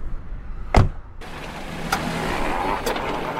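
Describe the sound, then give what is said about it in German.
A car door thuds shut as a person gets into the car, a single loud, heavy knock. Steady car noise follows, with a couple of lighter clicks. “Kommen Sie, steigen Sie ein.”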